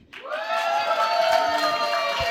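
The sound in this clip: Audience at a comedy show cheering and applauding in response to a question about who likes parmesan. Loud, dense mix of whoops and clapping rises quickly and then holds steady to the end.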